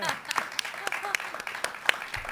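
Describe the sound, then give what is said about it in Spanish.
Scattered clapping from a small live audience after a tango song at a hospital medical centre, sharp uneven claps popping out over people talking. “Los aplausos no son de mentira, hay gente no, acá.”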